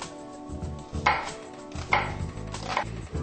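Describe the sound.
A knife chops an onion into small cubes: a few crisp, irregular thuds with short rustling between them, moderately loud and alone without talk.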